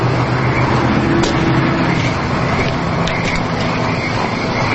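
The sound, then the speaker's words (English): A tow truck pulls up in front of a home at night, its engine a steady low rumble with a constant hiss of road noise running unbroken throughout. “It's night as a man in a tow truck pulls up in front of a home.”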